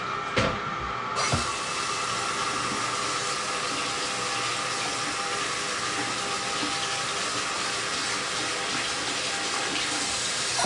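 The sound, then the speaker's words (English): Tap water runs steadily while hands are washed, a soft continuous rush that starts after a couple of faint clicks and keeps an even level to the end. “Get my hands washed.”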